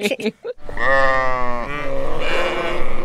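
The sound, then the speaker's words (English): A sheep bleats as a mistake sound effect, a loud, wavering nasal cry held for about two and a half seconds, right after a brief burst of speech. “the sound of the sheep means we made a little mistake”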